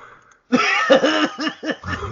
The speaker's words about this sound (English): I think I just audibly gagged and laughed at the same time.